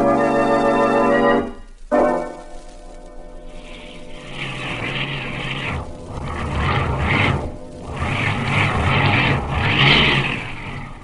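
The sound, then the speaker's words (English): Car engine revving hard while stuck in a field, rear wheels spinning without traction and the shaft resting on the ground. A strong whining drone drops out briefly, then returns as rough, roaring surges that swell and dip several times. “We're stuck. The shaft is on the ground, and the rear wheels can't get traction.”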